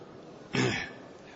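A single quick sneeze during a religious lesson, a short breathy burst that rises from quiet background and fades within a fraction of a second.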